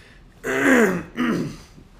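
Throat clearing by a person, two harsh, rasping bursts, the first longer and louder, the second shorter, separated by a brief pause and followed by quiet.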